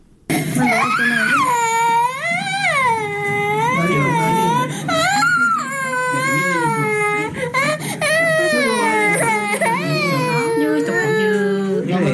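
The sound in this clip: Malnourished children crying from hunger: loud, continuous wailing sobs with pitch that repeatedly rises and falls, running without a break.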